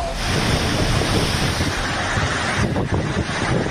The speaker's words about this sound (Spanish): son kilómetros y kilómetros de tormenta que está viajando claramente hacia el norte. Mira, vámonos a Albacete, este es el sonido en la zona de Letur a lo largo de la tarde.